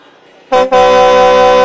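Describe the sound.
A vehicle horn blares loud and steady: a short blast, a brief break, then one long sustained honk that runs to the end, with no voices alongside.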